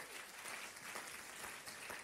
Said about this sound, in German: Lass dir jetzt einen großen Applaus geben heute Morgen.